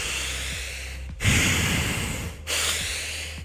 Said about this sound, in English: Begin the fire breath